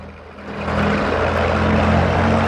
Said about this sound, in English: The aeroplane moves away across the wet tarmac as Mark watches.